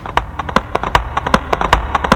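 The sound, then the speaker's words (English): Horses galloping in a Mongol battle, their hooves striking in a quick, uneven clip-clop rhythm. Many sharp thuds sound alone, moderately loud, without voices. “Then they would gallop back on their horses”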